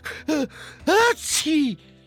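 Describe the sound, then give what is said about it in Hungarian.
A voice imitates loud sneezing after a fall into water: a few short, voiced bursts that arc up and down in pitch, with a hissy burst in the middle. “Hátszi! Tüsszögött nagyokat.”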